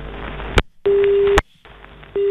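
Telephone busy tone after a call line was cut: steady mid-pitched beeps in on-off pulses, one long clear beep followed by another starting, over a hissy, crackly line background.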